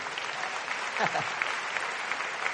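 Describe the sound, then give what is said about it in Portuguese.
A church audience applauds after a Bible reading: a brief, faint, even patter of many hands that lasts only a couple of seconds. “Pode aplaudir esse texto da Bíblia aí?”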